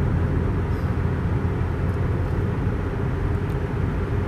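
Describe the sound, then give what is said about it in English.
Steady road noise from inside a moving car: a dense, constant low rumble of engine and tyres that barely changes level throughout, with no voices. “And now I get to huddle in the quiet solitude of my vehicle as I'm riding on the road.”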